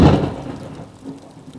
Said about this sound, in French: Soudain, la pluie se mit à tomber et l'orpheline porta les provisions à l'abri.